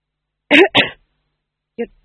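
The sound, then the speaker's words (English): A man coughs in a rough, throat-clearing way: two quick, harsh bursts close together, then a pause and a shorter, fainter third. “The tax gatherer coughed again.”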